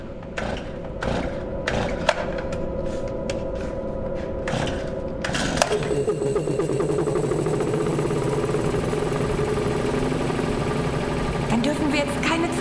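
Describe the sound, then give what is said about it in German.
A generator being started: several sharp rattling pulls or cranks, then the engine catches and settles into a steady, droning run with a constant mechanical hum to the end. “So, dann werfe ich mal wieder den Generator an.”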